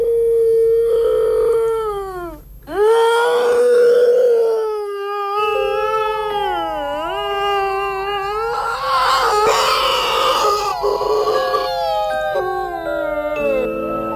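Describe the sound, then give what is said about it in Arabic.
A child crying in a bedroom at night: long, loud wailing cries whose pitch rises and falls, with a few short breaks between them. No talk is heard. “وبدأت أسمع صوت بكاء طفل تاني.”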